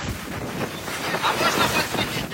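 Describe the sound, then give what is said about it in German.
Stormy sea at night around a ship in distress with a large hole in its stern, recorded by the Bulgarian navy: a loud, steady rumbling wash of wind and surging waves with gusty buffeting. “Aufnahmen der bulgarischen Marine heute Nacht zeigen ein Schiff in Seenot. Am Heck klafft ein riesiges Loch. Die See ist stürmisch.”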